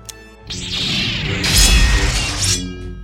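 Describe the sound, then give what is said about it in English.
A fine steel sword blade takes damage with a harsh, grinding crash that lasts about two seconds and grows brighter and louder near its middle. “That sword is of the finest steel. You should not have been able to damage the blade.”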